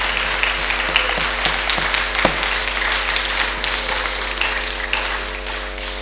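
An audience at a bilingual church service applauds in acclaim of the Lord, a steady, moderately loud patter of many hands with a few sharper individual claps over a constant low hum.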